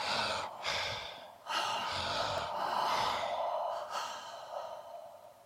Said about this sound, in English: we'll do two reset breaths, so in and out through the mouth with gusto